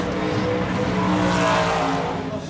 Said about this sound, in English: So what you're going to do is hold that gas pedal at 2,000 RPMs.